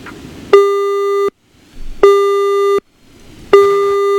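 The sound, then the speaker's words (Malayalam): A telephone busy tone after a caller drops off a phone-in line: three loud, steady, mid-pitched beeps of under a second each, evenly spaced with short silent gaps. “നമ്മുടെ collar ലൈനിൽ നിന്ന് കട്ടായി പോയിട്ടുണ്ട്.”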